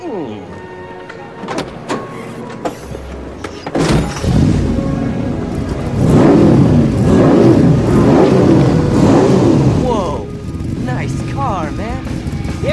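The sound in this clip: A car engine rumbles and revs beneath people talking in a film scene. A sustained mid-pitched drone swells louder through the middle.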